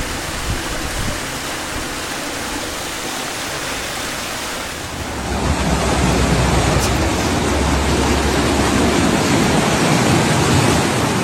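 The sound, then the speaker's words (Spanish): Floodwater from full reservoirs pours down a town's streets during a storm, a dense, loud rushing roar like a torrent or waterfall that jumps noticeably louder about halfway through and then holds steady. “El agua procedente de los embalses llenos cae así en Ubrique.”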